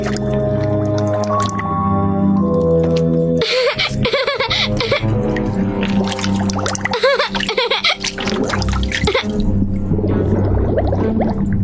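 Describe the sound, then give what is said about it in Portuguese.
Squishy, burbling bubbles rise from an animated anteater's snout held underwater. Gurgling pops and bloops run through the middle stretch over sustained orchestral music. “Bolhas saem pelo focinho dele.”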